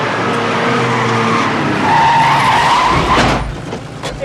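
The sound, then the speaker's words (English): A car skids to a stop outside a police station, its tires giving a loud, sustained screech with a clear squealing tone that rises slightly before cutting off and fading. “On another street, he peels around a corner. He skids to a stop in front of a police station.”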